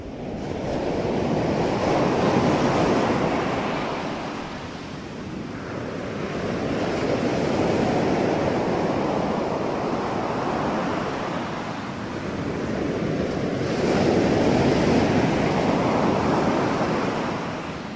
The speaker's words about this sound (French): Pourquoi avoir mis des sons de vagues dans cette émission sur la quantique ?